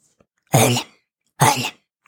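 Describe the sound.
Throat clearing from one person: two loud, rough bursts, each under half a second, separated by a short pause, alone without speech.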